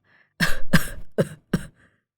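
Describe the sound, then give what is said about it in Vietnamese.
Four harsh coughs come from an old man who is clutching his chest, with a sore throat and struggling to breathe. The first two coughs are longer and the last two are shorter, with near-silence before and after. “Nói rồi ông lại ôm ngực ho lên khù khụ.”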